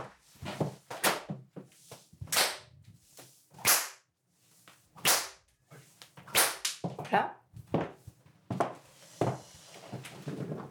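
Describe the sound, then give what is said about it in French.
Many sharp cracks of a leather whip, demonstrated among impact-play tools, each a sudden, snapping report separated by short, uneven pauses, loud against an otherwise quiet background. “des fouets. Je peux peut-être faire, euh, je sais pas si. Ouais. Alors attends, parce qu'il faut que je m'éloigne, parce que, que je te frappe.”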